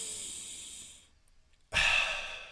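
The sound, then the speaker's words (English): A deep, hissing breath during a guided breathing exercise fades into a brief silence. A second strong breath then starts abruptly and stays loud and airy until the end. “let's do that one more time.”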